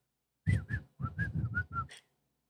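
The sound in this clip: A person whistles a short tune alone, a quick run of clear, bright notes with brief gaps that steps up and down in pitch before ending on a slightly higher final note.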